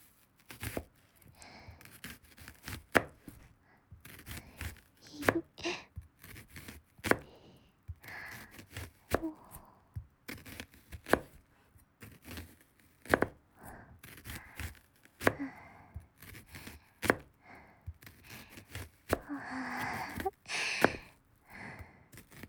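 A knife cuts through vegetables in many sharp, crisp chops and crunches at an uneven pace, quiet and steady with no talking.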